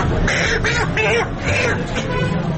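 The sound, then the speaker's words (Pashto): Farm chickens squawk and cluck in a busy poultry shop in Peshawar's Saddar area. Several harsh, repeated calls rise over a steady murmur of crowd babble and voices. “دا اوازونه په پیښور صدر کې د فارمی چرګانو پر دکان کې دي.”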